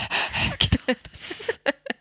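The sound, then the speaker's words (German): A voice imitating loud, heavy breathing, with breathy hissing exhales alternating with short voiced gasps and catches. “Und dann so ein lautes Atmen.”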